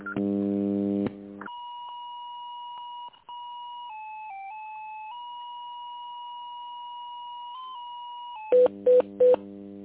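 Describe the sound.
Telephone tones during a call transfer: a buzzy tone opens, then a long steady electronic tone holds with a slight dip in pitch midway, ending with three short, loud beeps.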